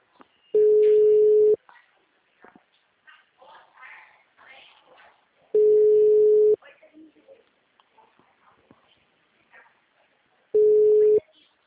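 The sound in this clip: Telephone ringback tone on an outgoing call: three steady, mid-pitched tones, each about a second long and spaced roughly five seconds apart, with faint background noise in the gaps.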